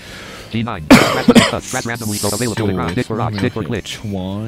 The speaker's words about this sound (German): dein Husten verrät dich